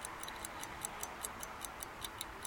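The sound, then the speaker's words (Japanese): A railway watch of the kind used by railway companies ticks held close to the microphone, a rapid, crisp, even beat of about five ticks per second, bright and metallic over a soft hiss. “鉄道時計ということで、鉄道会社では使われている時計になりますね。 すごいね、いい音がするね。ちょっとマイクに近づけてみますね。”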